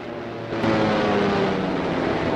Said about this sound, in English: All around the airfield, people look up, awaiting the return of the planes.